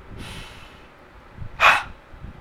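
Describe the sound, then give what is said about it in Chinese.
A sharp nasal inhale is demonstrated during a breathing-control exercise for acute-phase lung rehabilitation: one brief, fairly loud sniff through the nose, preceded by a faint, airy breath. “那慢慢老师来示范一次，鼻子吸一秒钟哈，再做一次示范”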